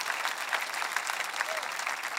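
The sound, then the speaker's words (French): Congregation applause in a church during a sermon on the resurrection, an even, steady patter of many hands at moderate volume throughout. “Comment ça mérite un meilleur applaudissement que ça?”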